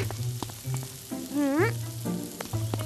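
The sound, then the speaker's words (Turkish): Cauliflower meatballs made with precooked cauliflower fry in a pan, giving a soft, steady sizzle with scattered small crackles and pops throughout. “Karnabahar önceden piştiği için köfteler çok çabuk olacak. Yaşasın. Bak, bir yüzleri pişti bile.”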